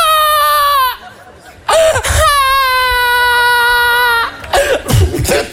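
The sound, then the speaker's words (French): Loud crying: two long, sustained high wails separated by a brief gap, then choppy, broken sobs and a cough-like burst at the end. “Ça va, arrête de pleurer.”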